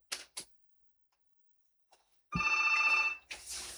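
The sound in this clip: An incoming call sets a telephone ringing: one bright, trilling ring burst of buzzing harmonic tones lasting under a second, with a few short clicks before it and a noisy rustle right after.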